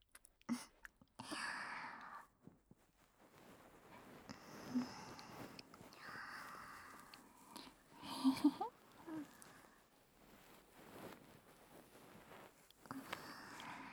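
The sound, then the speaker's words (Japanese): A bonten, the soft fluff on the end of an ear pick, gently strokes an ear, making quiet airy rustles and soft brushing sweeps that come and go in faint irregular bursts. “それではまずこちらの耳かきを使ってご奉仕させていただきますね。 まずは梵天で優しくなでなでしていきますね。”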